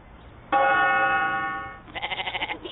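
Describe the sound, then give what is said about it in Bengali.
Goats bleat during a goat fight: first a long, steady, nasal bleat, then after a short pause a rapid, trembling bleat with a quivering pulse. “আমার সাহসী ছাগল, চলো এদিকে এসো, এদিকে এসো, ছাগলের লড়াই চলছে।”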